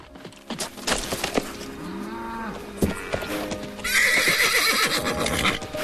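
A horse gallops up, stops and rears, with sharp clopping hoofbeats and a drawn-out whinny, growing louder and busier toward the end.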